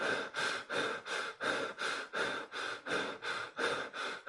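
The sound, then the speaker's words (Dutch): Rapid open-mouthed panting from a man sitting on an office chair: a fast, even run of breathy huffs, roughly two and a half per second, with a steady rhythm and moderate loudness. “Zo op mijn bureaustoel met mijn mond open te hijgen, dan denk jij wel, hey, het is niet helemaal goed.”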